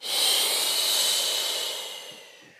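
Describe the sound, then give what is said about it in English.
A deep breath, drawn in through the nose and let out through the mouth, sounds as a single long airy rush that stays steady, then gradually fades away. “take a big, deep breath in through your nose. And then exhale through the mouth.”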